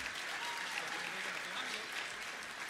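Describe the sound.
Dense, steady audience applause after a singing performance at an awards event: a continuous wash of many hands clapping, with no clear pauses across the short stretch.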